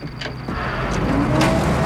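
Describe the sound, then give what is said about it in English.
Cars driving in convoy to a dusty crossroads, a continuous engine and road rumble that holds steady and swells slightly over two seconds, with a few brief bursts of hiss. “The next day, two convoys of cars meet at the dusty crossroads.”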